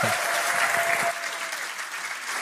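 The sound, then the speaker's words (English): A big round of audience applause welcoming a speaker at a church gathering: thick, crackling clapping from many hands that runs loud through the first second, then eases slightly and carries on steadily to the end. “So why don't we give her a huge round of applause.”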